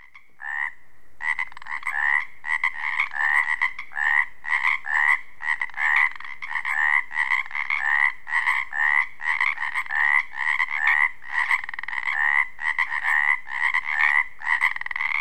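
Male tree frogs, each under two inches long, croak in a loud mating chorus from beside rocks or logs: many rapid, pulsed calls repeat in an unbroken, overlapping rhythm, with no voices.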